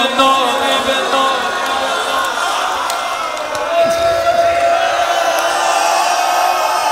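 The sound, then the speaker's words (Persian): A mourning crowd wailing together, a loud, sustained mass of overlapping voices rising and sagging in long drawn-out cries that keep going throughout. “آی قربون این ناله ها باید همینجور باشه”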